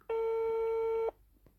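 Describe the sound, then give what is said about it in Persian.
A telephone ringing tone as a call is placed: one steady electronic beep lasting about a second, then quiet. “پس بریم که زودتر با رتبه برترمون تماس بگیریم و مصاحبهمون رو هم شروع کنیم.”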